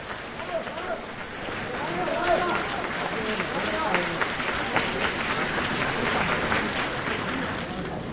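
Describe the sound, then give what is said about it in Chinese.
Audience applause after a Chinese crosstalk comedy performance, a broad, sustained roar of clapping that swells and holds for several seconds while performers speak over it. “谢谢大家掌声。 对， 掌声对演员是鼓励”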